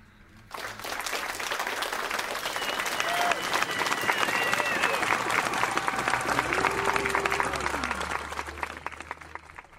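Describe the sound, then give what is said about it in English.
An audience of students cheers and applauds, breaking in sharply after half a second. Dense clapping grows slightly louder and stays steady, with a few voices calling out above it. “And they cheered.”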